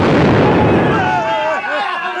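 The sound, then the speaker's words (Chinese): A bomb explosion: a loud, roaring blast with a thick low rumble that holds, then high wailing cries rise over the fading roar. “哎呀，炸弹啊！炸死人啊！炸死人啊！”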